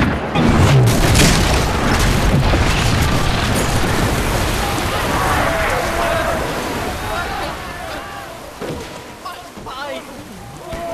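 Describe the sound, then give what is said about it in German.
Heavy cannon boom as chain shot is fired, a broad rumbling roar that fills the whole clip and slowly eases off, with a clamour of shouting voices underneath. “Holt die Kettenkugel. Los, Feuer!”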